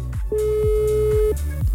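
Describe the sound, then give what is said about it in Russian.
A telephone ringback tone while a call waits to be answered: one long, steady, mid-pitched beep lasting about a second, heard over a loud continuous low background. “Ага, гудки есть уже, ждем. Ну, какие громкие-то гудки.”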